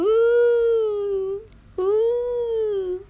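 A young child, lost from his mother in a shop, cries in two long, drawn-out wails separated by a short break, the second beginning sharply.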